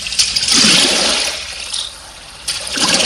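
Oars splash in water as a rowing boat moves: a long surging swish of water, a quieter lull, then a second surge starting near the end.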